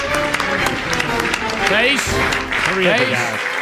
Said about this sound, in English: here are the Democrats cheering a bill that's going to raise taxes on the middle class